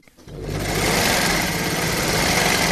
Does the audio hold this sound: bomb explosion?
no